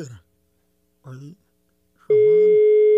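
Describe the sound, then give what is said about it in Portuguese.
A telephone line tone sounds after a dropped call, a steady single-pitched electronic tone that cuts in after a few brief voice fragments and holds loud and unbroken to the end. “a ligação caiu aqui, eu não sei o que foi que aconteceu.”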